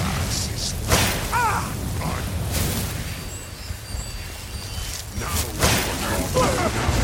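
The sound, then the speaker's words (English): An ice spikes spell cast in a video game: a few swooshing bursts with dull thuds, heard under a voice talking. “Shoot him with ice spikes.”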